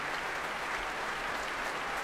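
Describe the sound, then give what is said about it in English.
A concert audience applauds while orchestra string players tap their music desks, making a steady, even wash of clapping that stays fairly soft and unbroken from start to finish. “And she leads the applause. All the strings of the orchestra tapping their music desks, as Marin Alsop indicates, for various of the wind section to stand.”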